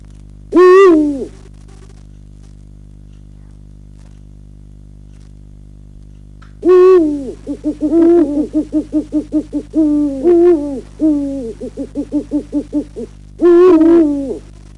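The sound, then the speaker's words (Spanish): Eurasian eagle-owl hooting at night in a gypsum ravine in steppe country: a single deep hoot, then after a long silence a run of rapid, stuttering pulsed hoots and a few stronger calls, clear against a quiet background. “Lo que hemos escuchado también es el rey de la noche Esteparia, que es el búho real.”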